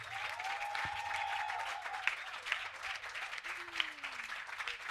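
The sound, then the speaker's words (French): A church audience applauds during a joyful worship service, with thick, continuous clapping throughout and a few sharper claps popping out near the end, while voices are faintly mixed in. “Maintenant, a faut acclamer Jésus parce que tu es dans la joie.”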